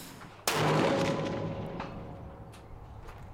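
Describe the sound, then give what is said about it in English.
A single rifle shot strikes a steel target: one loud, sharp crack, then a long metallic ring that slowly fades over the next few seconds. “I love that shot because it sounds like he was shooting steel.”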